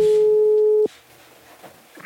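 A telephone ringing tone sounds while calling an adviser: one steady, sustained tone that holds for most of a second and then cuts off, leaving faint background hiss.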